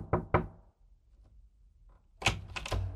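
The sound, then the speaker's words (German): Knocking on an office door: two quick knocks, a pause, then three more knocks in a fast cluster. The knocks are sharp but fairly quiet, with no voices. “Kurz nach 12:30 klopfte es an Kleins Bürotür.”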